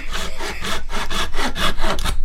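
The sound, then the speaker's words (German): Sawing through a small rectangular piece of wood to cut off its point: loud, rasping back-and-forth saw strokes in a steady, quick rhythm, with no talking. “es ist einfach so ein kleines Stückchen Holz, ein rechteckiges, und da sägen wir jetzt vorne die Spitze zu.”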